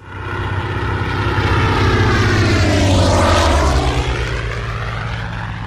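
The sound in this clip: Propeller aircraft flying past, its loud engine drone swelling as the pitch rises, then sliding lower as it passes and recedes, showing the Doppler effect.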